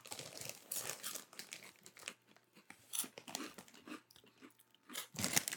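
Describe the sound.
Baked potato chips crunch between the teeth in many irregular, crisp bursts of crackling chewing, with brief quiet gaps between bites and no talking.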